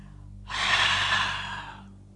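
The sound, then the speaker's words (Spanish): A person exhales all the air from the lungs during a breathing exercise. After a short pause comes one long, steady, breathy rush of air lasting over a second before it fades, with a low hum underneath. “Exhalamos todo el aire.”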